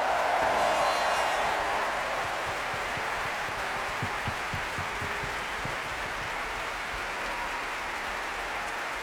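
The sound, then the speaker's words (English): Audience applause at the Proms concert season: a dense, even wash of clapping that runs steadily without breaks at a fairly soft level. “let's put our hands together and let's give a big round of applause”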